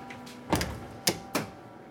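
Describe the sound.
A steel baking tray holding clipfish loin with olive oil is slid into an oven, giving a few sharp metallic clunks and knocks over a low, steady hum.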